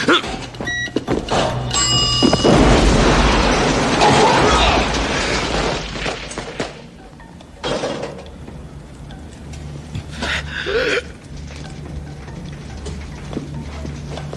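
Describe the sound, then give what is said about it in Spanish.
A bomb set off by a microwave-oven detonator in a kitchen explodes in a long, loud, roaring blast with shattering debris. After about six seconds it fades to quieter scattered bangs and rattles. “¿Qué fue eso? Una bomba, tonto. Usó el microondas como detonador.”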